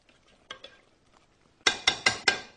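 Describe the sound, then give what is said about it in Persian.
Stew ingredients with tamarind, red pepper and black pepper being stirred in a pan: two faint scrapes, then four louder, evenly spaced clinks of a utensil against the cookware. “یک کم هم فلفل سیاه ریختیم تا عطر خوبی رو به غذای ما بده. مواد رو زیر و رو میکنیم.”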